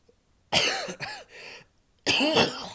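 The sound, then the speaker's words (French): Coughing and choking from a swollen throat: a few harsh bursts in quick succession, a short pause, then one longer cough, loud against near silence. “Pardon. Je m'étouffe parce que ma gorge, elle est quand même un peu gonflée.”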